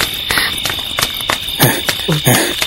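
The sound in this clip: Cricket-like insect chirping: a steady, shrill high-pitched trill with rapid pulsing chirps repeating throughout, fairly loud and alone.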